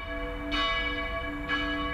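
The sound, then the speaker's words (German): A church bell cast in 1417 strikes twice, about a second apart. Each loud onset blooms over a steady hum of sustained ringing overtones. “Aber eine Glocke fiel völlig aus dem Rahmen. Es handelt sich um ein sehr wertvolles Instrument aus dem Jahr 1417.”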